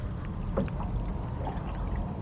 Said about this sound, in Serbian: a vas dva đavola da legnete malo jače na vesla, da vam ne bih uši u vodu pobacao. Hoćemo, hoćemo, pane. Veslaj, Stecko, da ti ne bih ušima veslao.